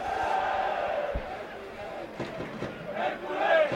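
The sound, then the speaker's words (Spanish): A football crowd cheers and chants in the stands at the Rico Pérez stadium during a Hércules match. The noise is moderate, with voices swelling louder near the end. “Ahí animando el público del Rico Pérez.”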